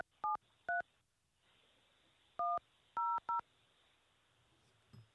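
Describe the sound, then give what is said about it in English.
Telephone keypad tones as a six-digit PIN is entered on a call-in phone line: several crisp, evenly pitched beeps in two spaced groups over a quiet hiss, followed by a faint thump. “Please enter your show or Enter your six digit PIN number.”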